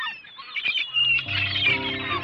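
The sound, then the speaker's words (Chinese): Seagulls calling: a string of high, squealing cries runs throughout, and a steady low tonal hum joins underneath in the second half. “嗰啲海鸥走走走”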